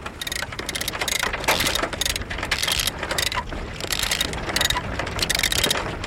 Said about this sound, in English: cutting of the engine, and the sudden ugliness of diesel gives way to wind and sea.